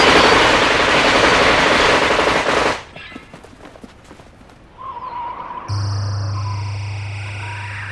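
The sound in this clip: Heavy automatic gunfire blasts through a window: a loud, continuous burst of rapid shots, then scattered quieter shots, followed by a steady electronic hum.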